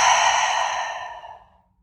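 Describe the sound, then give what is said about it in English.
A deep, breathy exhale during a guided breathing exercise: one long, steady rush of air that starts strong and fades gradually to silence within two seconds. “Deep breath in. Hold it. Exhale.”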